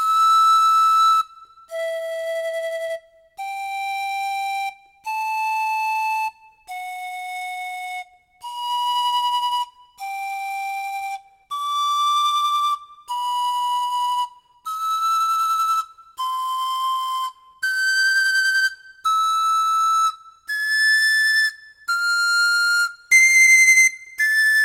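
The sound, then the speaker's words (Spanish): A rondador, the Andean panpipe, played in E: many breathy, whistle-like single notes, each about a second long and separated by short gaps. The notes step up and down while climbing overall toward higher pitches. “Sin embargo, se lo utiliza para producir melodías pentatónicas. Escuchemos el rondador en mi.”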